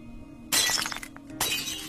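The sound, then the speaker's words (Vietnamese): A jar engraved with talismans is smashed: two sharp shattering crashes, each trailing off into clinking fragments. “Thầy Khoa thong dong tiến lại, nhìn thấy cái bình được khắc lên phù chú trấn yểm. Thầy nhận ra ngay, ấy là xương cốt của vong ông già được giữ ở trong đây. Thầy đập vỡ cái bình,”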